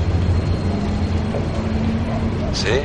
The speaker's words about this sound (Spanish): El coche de Miles circula por la noche.